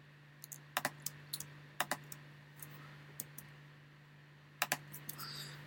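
Computer keyboard typing during a copy and paste, short bursts of sharp key clicks scattered over a quiet background, with a quiet gap midway and no voices.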